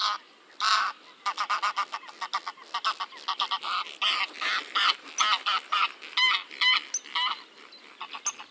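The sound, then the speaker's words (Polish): A greylag goose honks in a long run of short, nasal calls, many loud blasts in quick, uneven succession with brief gaps between them. “gęś gęgawa”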